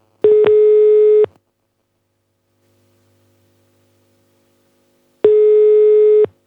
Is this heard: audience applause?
no